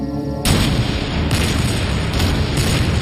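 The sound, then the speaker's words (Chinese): Massive Soviet artillery bombardment of German positions just before Operation Citadel, July 1943: after a brief quieter start, a sudden loud onset of continuous rumbling roar, with a few heavier booming surges on top. “在城堡行动开始前一小时，苏军就对德军阵地发起了大规模的火炮攻击。”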